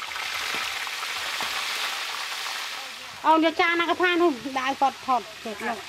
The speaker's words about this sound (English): Back in the kitchen of Soi Lon, the spiders are about to be fried.